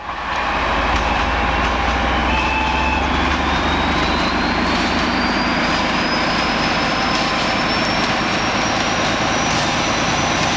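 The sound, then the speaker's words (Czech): A 'Brejlovec' locomotive train passes a level crossing in fog: a loud, steady rumble and roar fills the whole stretch, with a thin, high whine climbing slowly in pitch. “No je to brejlovec. Stál 2 hodiny v mlze u přejezdu”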